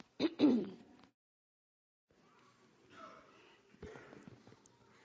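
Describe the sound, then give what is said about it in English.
A throat clearing from someone with a spring cold or allergies: one sharp, rough burst that trails into a rasp, followed by a pause and then faint low rustling. “I'm going to clear my voice for just a second, my friend back there.”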